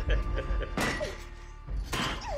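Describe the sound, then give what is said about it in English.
A bed frame kicked and breaking: two heavy crashing impacts about a second apart, each a thudding crack with a splintering rush of noise, over a low continuous rumble. “Ruby kicks the bed frame. It breaks and she frees herself.”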